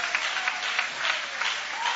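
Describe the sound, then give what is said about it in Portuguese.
A church audience applauds, a steady, continuous wash of many hands clapping that holds an even level throughout the short stretch. “podem aplaudir a Deus com alegria”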